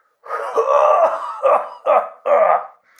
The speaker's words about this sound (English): Oh, hold on. There's something in my throat.